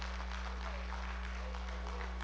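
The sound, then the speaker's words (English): Congregation clapping during a church worship service, a steady, dense patter of hands over a constant low electrical hum. “Some's a clapping, some shouting, amen.”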